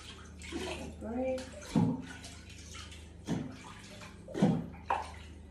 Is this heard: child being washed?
yes